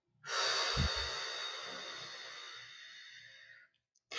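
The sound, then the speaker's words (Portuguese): A long, deep exhalation released after a count of four during a guided breathing exercise: one steady breathy rush of air lasting about three seconds, slowly thinning out, with faint low rhythmic tones underneath. “De novo. Respira fundo. Um, dois, três, quatro solta.”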